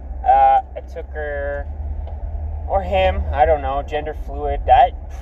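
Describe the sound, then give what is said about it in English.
A van being driven gives a low, steady engine rumble, a constant hum running beneath a voice talking throughout. “I just got my van legal to drive. I'm actually driving it right now.”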